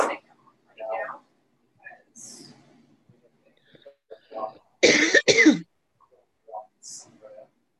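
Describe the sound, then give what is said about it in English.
A smoker coughs twice in quick succession, the sharp, harsh bursts loud against quiet surroundings, with faint breathy vocal sounds and soft noises before and after. “every time I cough, I feel guilty. I do. I try to make it really, really quiet.”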